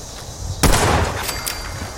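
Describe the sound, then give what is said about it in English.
Pistol gunshots in a video game: a sharp, loud shot followed by a few fainter reports in quick succession, over a low steady background. “Hey, this pistol's working out pretty good, except at that distance where it didn't do much damage.”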